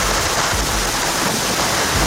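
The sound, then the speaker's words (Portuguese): Heavy rain pours during a thunderstorm in Houston, Texas, a dense, loud, steady hiss that fills the whole clip without a break or any clear thunderclap. “E esta cidade, no Texas, faz questão de receber os adeptos, com trovoada e chuva intensa.”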